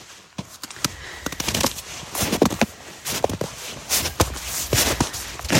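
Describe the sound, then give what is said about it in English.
Footsteps of a person walking outdoors on a sunny, windy day among fallen plant debris: many irregular, crisp steps and crunches at a steady walking pace, with no voices. “I'll just take a little walk around here.”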